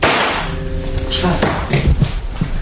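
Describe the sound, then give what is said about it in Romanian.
A single sharp gunshot cracks out in a radio drama as a man shoots himself, a brief, loud report standing out from a dense, busy background. “Ce-ai făcut, Schweitzer? De ce te-ai împușcat?”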